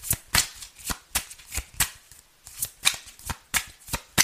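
Playing cards are shuffled in many sharp, papery riffling bursts. The bursts repeat in a fairly even rhythm with short pauses between them, and no voices are heard.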